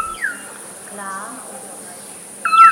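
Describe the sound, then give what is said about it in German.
An unusual bird call is played as an example. Short, bright whistled notes open and close the call, and a quieter, buzzing trill sits between them. “wenn bei all der Vielfalt der tatsächlich verrückten Vogelstimmen wie der hier oder der hier”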